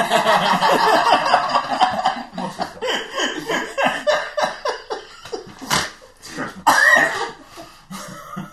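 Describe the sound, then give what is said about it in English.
A person snorts and then chokes into a fit of coughing. Many rough, uneven bursts rise and fall in loudness, and a louder cluster of coughs comes near the end. “I apologise for the snort followed by a choke.”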